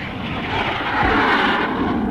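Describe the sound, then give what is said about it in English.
A police plane's engines roar in a steady, broad rumble that swells slightly midway and holds loud, with no voices over it. “The robot police are now moving the man to their plane, and there they go.”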